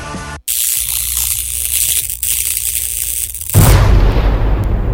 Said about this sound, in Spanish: ¿Qué fue eso? ¿Explotó algo aquí?